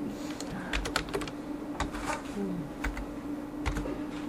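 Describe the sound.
Someone types on a computer keyboard, producing quiet, irregular clusters of sharp clicks in short bursts. A faint steady hum runs underneath.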